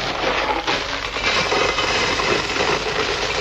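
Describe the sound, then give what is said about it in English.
Gravel rattles steadily as a box of it is shaken, making a dense, loud, continuous hiss-like clatter with no pauses throughout. “What have we got here? Box of gravel.”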